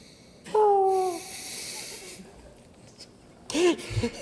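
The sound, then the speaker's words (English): A voice imitates the asthmatic breathing of a droid robot. A short, squeaky, whistling tone is followed by a soft, hissing breath, then a second rougher, breathy burst after a pause, all fairly quiet. “Have we heard of what it sounds like when BB-8 breathes?”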